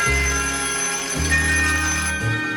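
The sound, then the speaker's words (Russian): A telephone bell rings in a Leningrad apartment, a steady, continuous ringing tone that holds through the whole moment over low sustained tones beneath. “В ленинградской квартире звонит телефон.”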